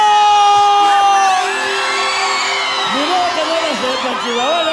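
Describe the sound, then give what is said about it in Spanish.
A festive Mexican grito, a loud yell with wavering pitch, rises over sustained bright electronic tones in a club music mix. “Y el pinche grito mexicano.”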